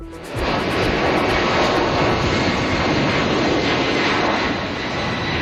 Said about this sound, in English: That is the sound of an evacuation flight lifting off from the Canary Islands with Canadians on board.